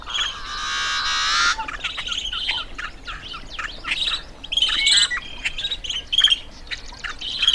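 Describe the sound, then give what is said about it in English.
Yellow-headed blackbird song opens with a loud, harsh, buzzy rasp lasting over a second. Many short chirps, clicks and squawks from other birds follow, with a frog-like croak in the mix. “the marsh wren, a yellow-headed blackbird song,”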